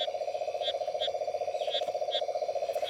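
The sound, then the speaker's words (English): A frog calls in northern Australia, where a native frog was hoped for rather than cane toads: a steady, rapidly pulsing call runs throughout, with a few brief higher chirps above it. “Oh, wait a sec. What's that sound? Oh, it's a frog! Yes!”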